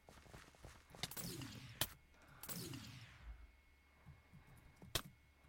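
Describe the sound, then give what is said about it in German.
Arrows shot in the video game Minecraft: two noisy, swishing sweeps and a few sharp clicking hits, all fairly faint, with no talking. “Ja, ich werde von allen Seiten beschossen.”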